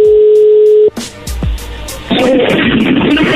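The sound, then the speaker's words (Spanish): A telephone call being dialed: a steady dial tone cuts off, followed by several clicks and brief tones, then loud hissing line noise. “se está marcando, vamos a ver si contesta.”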